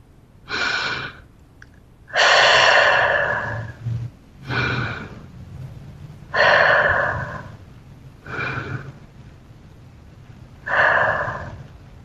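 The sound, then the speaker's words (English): A person takes three slow, deep breaths during a guided mindfulness practice. Each is a soft inhale followed by a longer, fuller exhale, with quiet pauses between breaths. “T, take 3 deeper breaths.”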